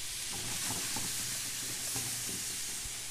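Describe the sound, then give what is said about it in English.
Onions, celery and jalapeno sizzle in a hot pan, giving a steady, bright frying hiss with faint crackles and a few soft stirring scrapes. The sound continues evenly throughout, with no talking. “And into the pan go the onions and the celery and the jalapeno.”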